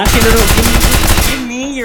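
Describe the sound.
Assault rifle gunfire in a video game: a rapid, loud automatic burst of tightly packed shots lasting just over a second, then cutting off abruptly.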